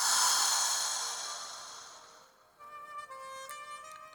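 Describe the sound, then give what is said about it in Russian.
A long, slow breath drawn in through the nose and released through the mouth during a guided breathing exercise, a soft airy rush that gradually fades over a few seconds before gentle sustained tones take over. “Вдох делайте через нос, выдох через рот. Итак, вдох, выдох,”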